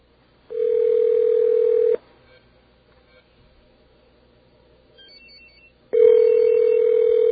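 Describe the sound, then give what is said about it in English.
Dial tone while placing a call to a Sprint mobile phone: a loud, steady hum-like tone for about a second and a half, then a quiet gap, then the same tone returning to the end. “we'll actually call a Sprint number that happens to be here in the studio and try to leave an numeric page.”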